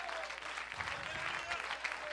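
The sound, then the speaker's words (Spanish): Faint applause from an audience during a church worship service, a quiet, continuous patter of many hands clapping at a fairly even level throughout. “Ese aplausito está chueco”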